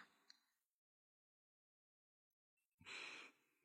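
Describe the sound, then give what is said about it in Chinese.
A person fakes a snore while pretending to sleep: a single breathy, rasping exhale rises out of near silence, with a faint click near the start. “怎么还装打呼？学的一点都不像。”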